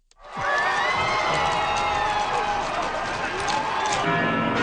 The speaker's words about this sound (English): It's the sound of crowds in Madrid welcoming Pope Leo at the city's royal palace.